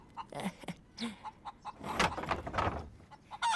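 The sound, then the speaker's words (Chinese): Hens clucking in a chicken coop after laying eggs, with many irregular, short clucks and cackles that come in bursts. The sound is fairly faint and no one speaks. “又下蛋了，来吃吧，吃饱了好天天下蛋。”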